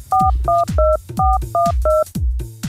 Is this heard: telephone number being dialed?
yes